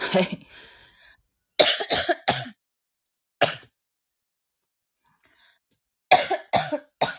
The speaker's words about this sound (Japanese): むせる。今ね。